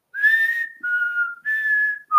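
A four-note whistled tune from a Kool-Aid drink commercial: clear, pure sustained whistles, the second note dipping below the first, the third rising back up, and the fourth starting lower just before the end.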